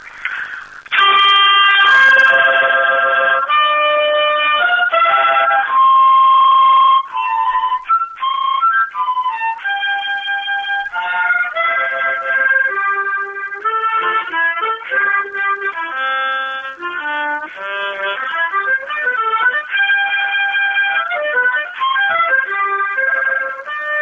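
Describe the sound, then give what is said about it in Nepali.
A mouth harmonica plays a solo tune of bright, reedy sustained notes in quick, varied melodic phrases, loud and continuous with short breaths between passages. “म आज डबलीमा यो mouth harmonium बजाउने प्रयास गर्छु, धुन सुनाउँछु।”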